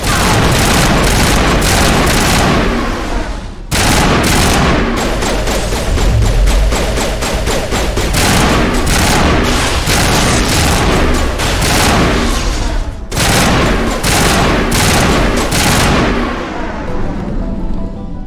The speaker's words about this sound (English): I don't even remember why I'm using the sniper rifle.